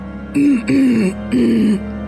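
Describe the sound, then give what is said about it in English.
A voice acts out a woman clearing her throat, with three short, gravelly, voiced bursts in quick succession, loud and heard alone. “Celine is gonna stand up, and she's gonna clear her throat”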